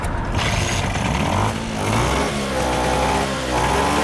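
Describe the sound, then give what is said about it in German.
Vespa scooter engine running again after a roughly two-hour repair, responding well to the throttle: a loud, buzzy motor drone in a few sustained surges broken by brief dips, with no voices. “Nach knapp 2 Stunden ist das Problem gelöst. Die Vespa läuft wieder und hängt gut am Gas.”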